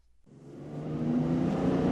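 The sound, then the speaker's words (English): A car engine hums as it drives on city streets in Dearborn, Michigan, while another sedan is being followed. The steady drone fades in from silence and grows louder, with no talking. “Jim Dunn is stalking a white sedan on the streets of Dearborn, Michigan, not far from the headquarters of Ford Motor Company.”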